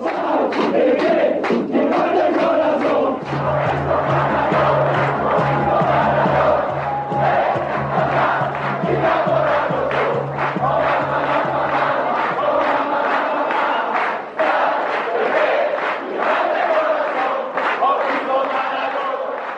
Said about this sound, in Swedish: Det där var alltså ramsan, och visst, och Maradona, jag har sett Maradona.